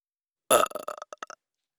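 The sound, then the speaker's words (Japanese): A single loud burp erupts sharply, then trails off into a string of short, choppy gulping bursts that fade within a second, alone against silence. “ゲップは好きになっちゃった？”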